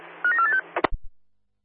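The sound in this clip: Telephone keypad dialing tones during a radio exchange: a quick run of short, bright beeps, then a few dull clicks and thumps that fade out, with no voices.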